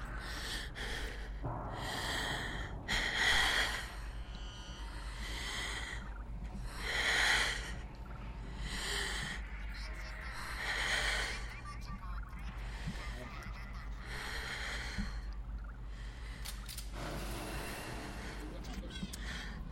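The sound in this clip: Slow, deliberate square breathing, counted four beats in and four beats out. A few long, soft breath swells rise and fade over a steady low background hum.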